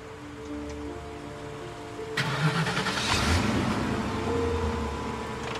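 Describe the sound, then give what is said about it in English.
A car's engine backing out of a parking spot and driving away, with a low steady hum that swells into a louder, sustained drone partway through, then eases slightly. No voices. “She backs out of her parking spot.”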